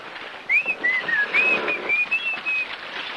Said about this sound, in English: I'll whistle a wind up for you.